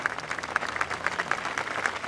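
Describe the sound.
A crowd claps at a solemn outdoor ceremony outside a synagogue: dense, steady applause of many hands forming a continuous crackling texture without pauses.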